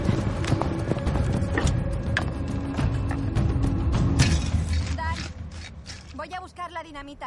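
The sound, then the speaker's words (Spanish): Hoofbeats of riders' horses galloping in a western film, a rapid clattering that runs for about five seconds, then thins out as a voice takes over at the end. “los jinetes cabalgando hacia el risco que protege la trasera de la casa”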